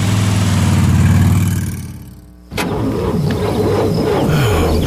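A car engine cranks but fails to start on a dead battery, the starter turning over in a slow, low, rhythmic churn that weakens and fades for a couple of seconds before a different, steadier sound cuts in.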